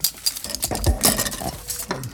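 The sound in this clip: Knives, forks and spoons are stirred around in a box, making a continuous jumble of metallic clinks, rattles and scrapes with many overlapping small impacts.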